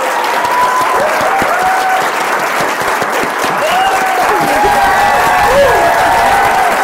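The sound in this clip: Loud, sustained applause from an audience of actors welcoming a guest actor, with dense clapping holding steady throughout and a few scattered voices rising above it.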